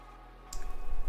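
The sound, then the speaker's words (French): A single die shaken in a cup and rolled during a tabletop game: a low hum, then a sharp click followed by a steady low rattling rumble to the end. “Je me familiarise avec les lancers de dés, hein, excusez-moi.”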